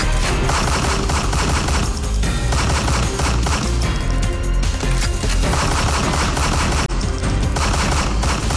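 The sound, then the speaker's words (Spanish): Loud, dense gunfire from an armed man opening fire on people relaxing at a gathering spot, rapid overlapping shots in a sustained barrage that hardly lets up from start to finish. “un hombre armado irrumpió en la paz, en la felicidad, en la tranquilidad del lugar y abrió fuego, raquitín, quintán, quintán.”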